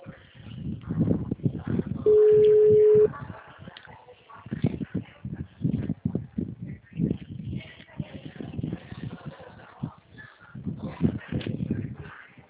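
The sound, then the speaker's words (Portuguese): A single steady telephone tone, one low electronic hum lasting about a second, cuts in over a noisy background of muffled sounds and movement. “Il sottotono?”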